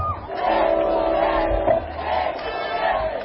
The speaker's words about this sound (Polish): Jeszcze raz gorące brawa!